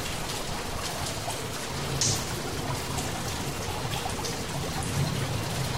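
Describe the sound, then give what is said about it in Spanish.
Steady rain at night, heard from inside a car, makes a dense, even hiss of drops with no talk and only slight swells in loudness. “Es de noche y llueve.”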